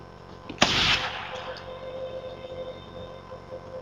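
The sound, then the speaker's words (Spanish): A single gunshot fired with a silencer: one sharp, muffled burst with a brief hissing decay, followed by a low, steady drone. “El silenciador hace del disparo un susurro”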